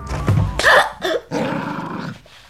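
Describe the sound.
A dog barks and growls in an audio drama scene: a few sharp, rough barks in quick succession, then a longer growling bark, loud, with no talking.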